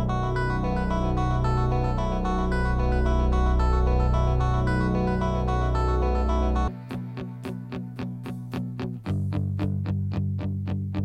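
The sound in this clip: An instrumental rock stadium anthem, the sort a football team takes the field to, opens with loud, sustained, effects-laden chords. These give way to a steady, driving pulse of repeated, echoing notes over a firm beat.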